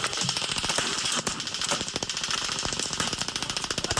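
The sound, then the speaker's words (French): Heavy gunfire from soldiers in a jeep during a desert attack in northern Iraq, in amateur footage: dense, rapid bursts of sharp shots hammer on continuously and loudly with no pause. “donc ce qu'on entend, c'est le feu nourri.”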